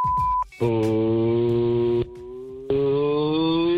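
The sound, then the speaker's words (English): A single steady beep tone from a call-in voicemail line sounds briefly at the start. Loud, sustained buzzing harmonic tones follow in two long blocks, separated by a quieter stretch. “This is the voicemail. Please leave a message after the tone.”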